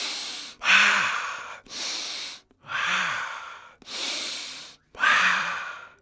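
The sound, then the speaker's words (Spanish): Three deep breaths taken before starting to speak, heard as six loud, airy breath sounds in steady alternation with brief gaps between them, a faint sighing voice tinting some of them. “Respira profundamente 3 o 4 veces antes de empezar a hablar.”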